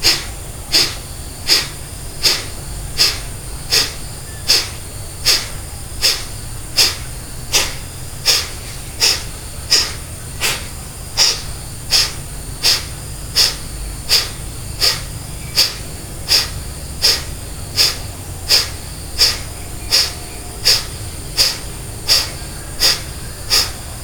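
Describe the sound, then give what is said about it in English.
Breathing during a breathing exercise: many forceful, airy breaths repeat at a steady, quick pace, evenly spaced and similar in loudness throughout. “And then preparing to begin, inhale. And begin.”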